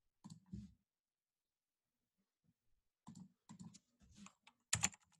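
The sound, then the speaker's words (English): Faint clicking on a computer while waiting for a slow-loading page, heard as a few short bursts of quick clicks separated by stretches of near silence. “I'm trying to click on it. It's just loading slow.”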